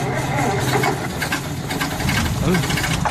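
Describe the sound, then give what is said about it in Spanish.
An engine sputters and jams, running rough and uneven with a knocking, rattling vibration. The noise is steady and moderately loud throughout. “Vaya, el motor se ha encasquillado.”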